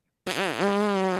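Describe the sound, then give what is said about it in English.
A voice imitates a long fart with a buzzy, raspy tone whose pitch dips twice before holding steady for about a second, loud and alone. “Like when I fart, literally, it's like,”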